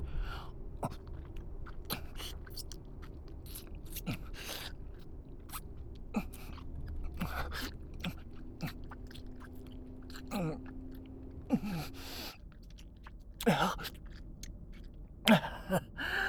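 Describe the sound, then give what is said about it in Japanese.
Wet kissing sounds: many short, moist smacks and lip clicks in an irregular rhythm over a low background, with no talking. “さあ、もっとこっち来て。キスしたい。”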